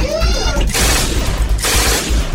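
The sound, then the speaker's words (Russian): Furious, random gunfire sound effect with fiery arrows, fired by demon guards from pipes in a fortress hall: dense, loud, crackling bursts in two long sustained waves with a short dip between them. “Ища своими трубами кемерийца и открывая яростную беспорядочную стрельбу.”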